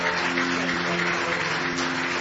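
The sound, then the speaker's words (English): An audience claps hands in praise at a church service, a steady, dense clatter of many hands that continues evenly throughout, with a sustained low tone underneath. “Give him one more hand clap of praise tonight.”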